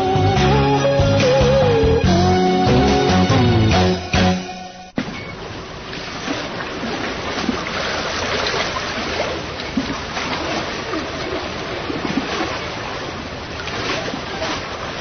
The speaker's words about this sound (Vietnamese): Chiếc đò chèo từ ngoài vàm sông cái vô tới trong rạch, Tư Cầu